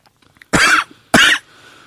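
Two sharp, loud coughs from a person with e-juice caught in the throat, the bursts about half a second apart and each lasting roughly a quarter second, followed by faint breathy rasping.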